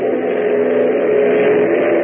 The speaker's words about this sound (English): Turning back to the controls, Hop opens the throttle another notch, sending the DC-3 roaring ahead through the night sky